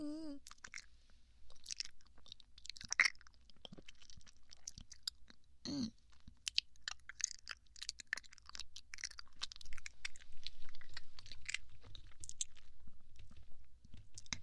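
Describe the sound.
Chewing of osmanthus cake: many soft crunches, wet bites and mouth clicks in an irregular rhythm throughout, fairly quiet and with no talk.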